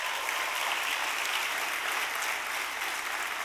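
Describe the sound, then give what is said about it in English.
Applause from a church audience welcoming worshippers at several campuses, a dense, steady clatter of many hands that holds at an even level for the whole few seconds. “Come on, give it up and welcome all the campuses today.”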